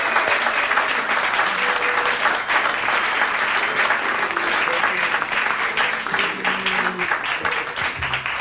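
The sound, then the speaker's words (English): Audience applause welcomes a singer on stage, a dense, sustained wash of clapping that holds steady without a break. “So if you would, please, let's put your hands together, give a nice warm welcome”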